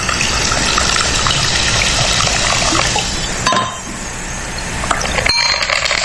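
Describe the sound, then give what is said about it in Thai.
Soda is poured into a glass to top up a drink, giving a loud, fizzing gush for several seconds. The gush then eases, and a couple of sharp clinks follow. “มาเติมโซดาครับ”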